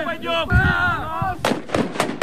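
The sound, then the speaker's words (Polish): Sharp, booming blasts of flash-bang stun grenades set off during a border guard training exercise; a few loud bangs in quick succession follow a stretch of raised voice. “Zostały zastosowane działania specjalne, między innymi granaty hukowo-błyskowe.”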